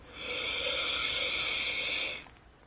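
One long, deep breath drawn in through the nose during a guided breathing exercise, a steady airy hiss lasting about two seconds before fading out.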